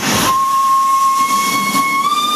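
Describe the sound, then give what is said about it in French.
A coal-fired steam train setting off on the line to Saint-Agrève gives a steady, high steam whistle that holds one tone throughout over loud hissing steam, with no voices. “Le train s'est élancé.”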